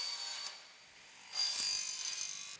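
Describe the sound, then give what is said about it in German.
A circular saw cuts at an angle through an aluminium football goal crossbar held in place, giving a steady high whine with two louder bursts of cutting. “Also, hier ist jetzt gerade die große Querlatte von oben. Die wird hier festgehalten und dann wird die mit so einer Kreissäge schräg abgeschnitten.”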